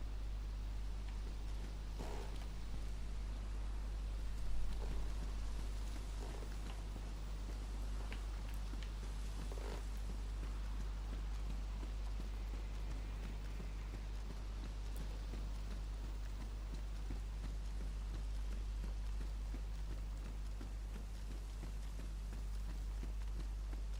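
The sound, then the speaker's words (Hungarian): Steady rain in a video game, a continuous, even hiss of falling water over a constant low hum, with no clear breaks throughout. “elkezdett esni az eső, természetesen, hiszen mi más történhetne a Daisy-ben, mint hogy a nyakunkba szakad az eső”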